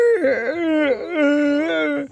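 A man fakes sobbing in a comedy bit, letting out exaggerated, wavering wails. Two long, tuneful cries bend up and down in pitch, each loud and drawn out, before cutting off.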